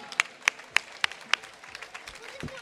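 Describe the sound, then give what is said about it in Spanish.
Audience claps for a stage act at a tenth-anniversary show. About five sharp claps fall at a steady, quick rhythm, then the clapping fades into softer, scattered claps. “Un aplauso para Patera.”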